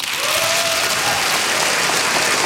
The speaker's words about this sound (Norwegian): applaus for Tin Lai Win under Oslo Freedom Forum